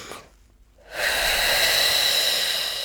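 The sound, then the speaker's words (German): A deep breath drawn in, held, then let out, done as an osteopath's breathing exercise to loosen an adhesion between the rib arches. A brief faint intake and a silent pause give way to a long, steady, breathy exhale. “Also sehr tief einatmen, halten und dann”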